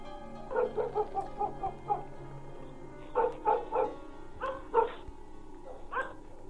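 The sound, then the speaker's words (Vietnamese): German shepherd dogs bark outside at night in the wind, letting out a rapid run of several barks, then shorter bursts of two or three, and a final lone bark over a low steady background. “Ngoài kia, gió vẫn thổi, mấy con chó bẹc dê của ông ấy vẫn cứ cắn nhấm nha nhấm nhặng.”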